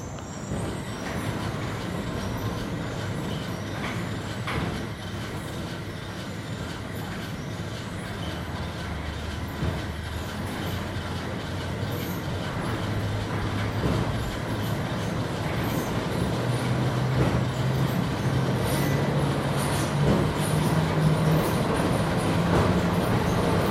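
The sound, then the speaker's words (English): Train motors running, recorded with the recorder pressed against a window: a steady, loud rumble with rattling, and a low droning whine that gradually rises in pitch toward the end. “Oh, we can hear the motors.”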